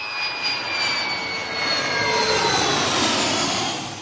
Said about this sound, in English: A Czech army aircraft was deployed to Israel on Friday morning, carrying firefighting equipment worth 1.5 million crowns